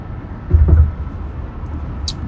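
Low road rumble fills a moving car on a long drive, a steady muffled hum with a brief swell of heavier low thumps near the start, no talking.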